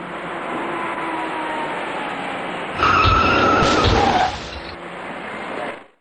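Tires skid and a collision crunches as a dark car fails to brake and rear-ends a silver car on Beijing's Fifth Ring Road at night. A loud, harsh burst rises over steady traffic hum, then fades.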